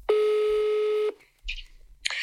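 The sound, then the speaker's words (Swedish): Telephone tones while placing a call: a steady electronic tone holds for about a second, followed after a short gap by two briefer tonal bursts. “Jag tänkte ringa upp Kid och kolla det här testet på honom, så får vi se.”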